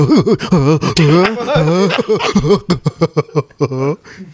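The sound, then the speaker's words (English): A voice imitating an anime-style nervous breath: quavering, wavering voiced breaths and gasps, then a run of short, choppy panting bursts. “Shout out the anime. The anime nervous breath.”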